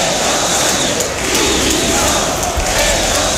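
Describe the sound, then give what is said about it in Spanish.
A large crowd at a rally in Seville, held in support of Ceuta, chants and shouts against the government, forming a dense, continuous roar of many voices. “Un público que cargó mayoritariamente contra el presidente del gobierno, Pedro Sánchez, y el ministro del Interior, Fernando Grande Marlaska, pidiendo su dimisión.”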